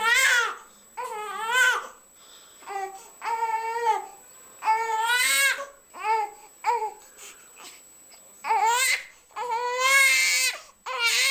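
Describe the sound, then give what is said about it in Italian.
A newborn baby cries in repeated wailing bursts with short pauses between them. The cries are loud, shrill and wavering, and no other sound is heard. “ciascuno di noi a casa può indovinare per che cosa si nasconde dietro questo vagito, quale bisogno vuole comunicarci il nostro bambino”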